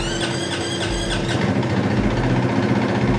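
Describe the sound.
A GasGas 450 motorcycle engine runs on a dyno, giving off a steady, rough, noisy drone with a low hum underneath and a faint pulsing in the first second.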